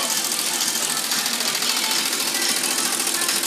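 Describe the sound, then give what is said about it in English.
An embroidery machine stitches a hat with a steady, dense mechanical whir, an even buzzing drone that holds constant throughout without a break or pause. “I gotta get one of these for the crib. The embroidery machine? So cool.”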